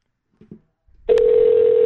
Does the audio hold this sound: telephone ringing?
yes

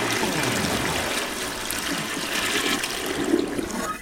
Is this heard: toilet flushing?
yes

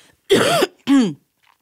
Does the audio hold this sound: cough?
yes

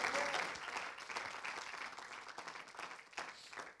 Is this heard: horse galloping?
no

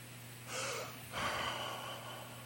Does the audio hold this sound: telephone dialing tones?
no

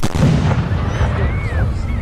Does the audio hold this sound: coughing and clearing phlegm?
no

